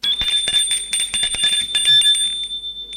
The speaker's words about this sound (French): Et sonne chez Gilles.